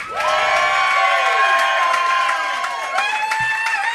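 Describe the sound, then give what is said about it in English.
Comedy show audience voting for a comedian with a burst of cheering, clapping and whoops: loud, dense crowd noise with high shouts sweeping across it, easing slightly toward the end. “And if you want to hear more jokes from Anthony, give it up.”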